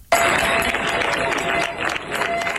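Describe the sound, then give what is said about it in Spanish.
Residents of Niebla applaud members of Spain's emergency military unit as they withdraw after ten days fighting a large wildfire. Dense clapping starts suddenly and continues unbroken, mixed with crowd noise. “Así han despedido los vecinos de Niebla entre aplausos a los efectivos de la UME, que han comenzado su repliegue tras 10 días de lucha contra un incendio”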